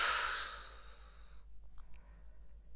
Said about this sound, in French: Puis, nous expirons